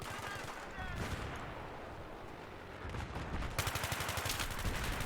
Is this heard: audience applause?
no